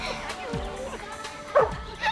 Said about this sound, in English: Oh, you got me a dog. Oh, he's adorable. Oh, you're such a cute dog.